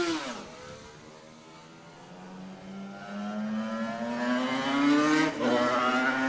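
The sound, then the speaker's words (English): A Suzuki RG500 racing motorcycle roars along the mountain course, its loud engine note dipping briefly at the start and then climbing steadily in pitch, with a short drop near the end before rising again. “He rides the same RG500 Suzuki he rode to victory in the 1981 senior.”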